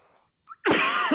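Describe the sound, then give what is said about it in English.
A single harsh, rough cough bursts out after a brief faint breath sound, loud and raspy for about half a second before cutting off. “Sorry for the cough.”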